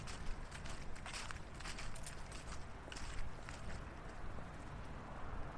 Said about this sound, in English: We're going to walk towards that street past the statue at the north end of the square.